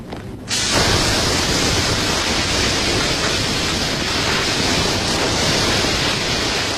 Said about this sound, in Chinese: 这个噪音就来自于洗洗的这个皮管的水龙头， 实际上是一个就 是消防用的， 类似于高压水枪的这么一个这一种喷法啊